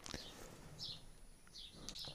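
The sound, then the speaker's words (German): Birds twitter faintly in the background outdoors, giving a few short, high chirps scattered across a quiet, soft ambience. “deswegen haben wir uns nach draußen gesetzt. Das heißt, von der Tonqualität ist es vielleicht ein klein wenig anders und man hat ein wenig Vogelgezwitscher, ja, im Hintergrund.”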